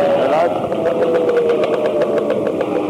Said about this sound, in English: Excessive noise. He needs a muffler.